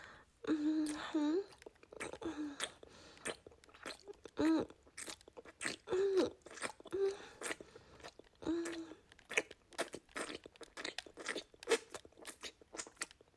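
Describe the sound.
Gum is chewed close and wet, with many crunchy, smacking bites in an uneven rhythm, broken by soft whispered speech.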